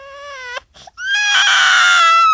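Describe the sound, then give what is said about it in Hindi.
A baby cries loudly with no other sound: a sustained high wail, a brief broken pause, then a longer and more intense cry. “बच्चे के रोने की आवाज सुनकर भगवान चौंक कर झट से उठ बैठा।”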